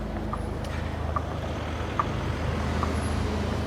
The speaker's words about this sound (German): Kommt ein Bus.